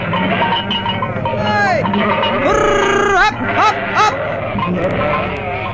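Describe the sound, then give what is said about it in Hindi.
Sheep or goats bleat while the livestock graze in a pasture. Several wavering, nasal bleats rise over a steady, busy background. “पशु हरी हरी घास चरने लगे।”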